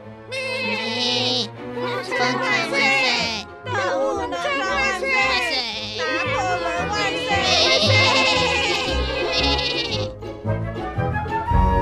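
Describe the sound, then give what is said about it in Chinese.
Several overlapping voices imitate a flock of sheep bleating excitedly in a children's story, a busy, wavering chorus of high, quavering bleats that goes on throughout without pause. “羊群激动地喊着。”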